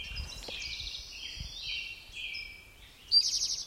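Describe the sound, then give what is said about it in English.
Western tanager song in the background, a continuous run of high warbled phrases that ends with a louder, brighter burst of notes. “Western tanager in the background.”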